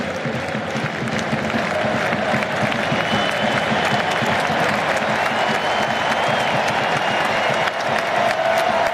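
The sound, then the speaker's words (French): A stadium crowd applauds a player being substituted during a football match, a sustained, dense roar of clapping and crowd noise that stays loud and steady for about nine seconds. “Ah, belle ovation.”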